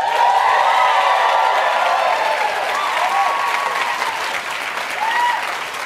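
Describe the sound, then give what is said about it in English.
Audience applause at a live show, a dense, loud, steady wash of clapping that holds for the whole stretch and eases slightly near the end. “Give it up for Roy and Michael, everybody.”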